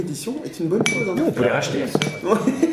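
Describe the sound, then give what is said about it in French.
Dishes and cutlery clink in a newly opened inn run by hobbits. Light, scattered clinks sit under steady conversation. “à la limite du Elf Pass, vous entendez qu'il y a une auberge qui vient d'ouvrir.”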